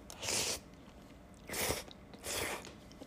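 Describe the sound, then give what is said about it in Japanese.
Tomato pasta being eaten, heard as three soft, crunchy bites or chewing bursts separated by short pauses, quiet and with no talk. “じゃあパスタいただきますね”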